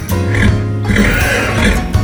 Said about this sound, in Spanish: Este es el sonido de un caballo Mustang pura sangre.